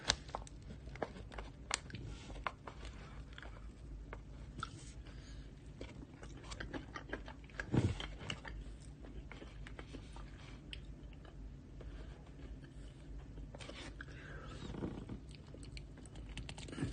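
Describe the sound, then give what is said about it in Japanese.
Chewing and eating cake: many soft, irregular mouth and bite sounds, faint and quiet throughout, with no talk. “今ケーキ食べてます。”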